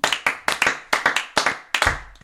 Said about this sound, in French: Déjà, on peut l'applaudir.